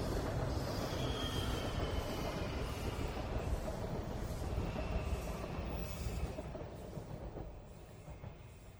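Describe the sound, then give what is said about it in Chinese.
A southbound passenger train runs along the rails with a continuous rumbling roar and thin traces of high wheel squeal, easing slightly quieter toward the end. “她终于还是踏上了南下的列车。”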